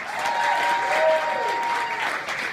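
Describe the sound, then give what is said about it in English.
Audience applause at a live comedy show, a warm welcome for a duo: a full, even clapping wash that stays loud throughout and thins slightly near the end. “Meaning that you have to have a lot of applause tonight.”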